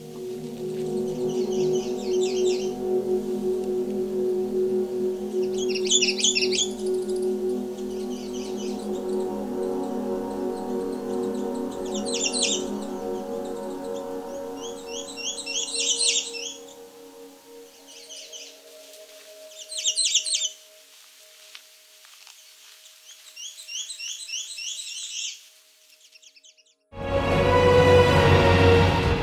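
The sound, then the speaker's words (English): A male songbird sings short, high warbling phrases, repeated many times with brief pauses between them. A low, steady rumble runs beneath the first half, and a loud burst of broad rushing noise cuts in near the end. “The males have a Halloween-like color scheme and many different variations to their short warbling songs. One of the most common songs they sing sounds like it's see to see to see, sometimes with an additional to see-o.”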